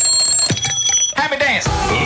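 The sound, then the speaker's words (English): An alarm clock rings with a bright, steady high-pitched tone for about the first second, then gives way to busier, music-like sounds with swooping pitches. “And your alarm has done its job.”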